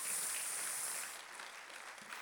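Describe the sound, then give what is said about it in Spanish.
Faint applause from a church audience clapping for the Lord, fading off after about a second into quieter scattered claps. “aplauso para el Señor, sin duda.”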